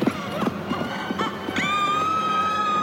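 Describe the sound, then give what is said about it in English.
Hooves of a ridden horse at a gallop clop in uneven, rapid beats, then a long, high, steady whinny rings out over them. “It swung itself into the saddle of the nearest horse and rode at the girl. As it drew alongside, it scooped her up and galloped away through the main gates”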